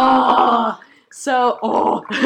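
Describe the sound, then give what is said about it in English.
A collective groan rises from several people at once, a voiced, drawn-out sound in two main bursts separated by a brief pause, followed by a rougher, noisier stretch. “collective groan.”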